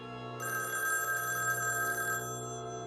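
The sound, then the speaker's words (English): A telephone rings in a police station: one sustained, bright electronic bell tone lasting about two seconds, loud and clear above a steady low hum. “In the police station, the phone rings.”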